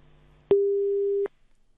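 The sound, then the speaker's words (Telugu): A single steady busy-signal tone on a phone line after a call-in was cut off: one flat, mid-pitched electronic beep lasting under a second, then silence. “Call అయితే cut అయిపోయినట్టుంది.”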